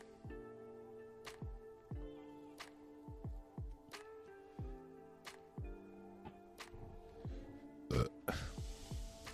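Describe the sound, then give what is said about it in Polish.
A long, drawn-out burp breaks into many rapid, croaky pulses, each one dropping in pitch, at a fairly low level. “Tym oto beknięciem rozpoczynam audycję informacyjną.”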